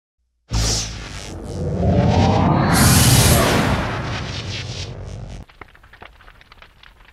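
A starship's warp drive engages with a sudden loud blast that swells into a roaring, rushing whoosh with a rising sweep. It then cuts off abruptly, leaving a faint crackling tail.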